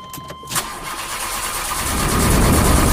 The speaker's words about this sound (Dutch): ik heb de ehm, tijdmachine start bijvoorbeeld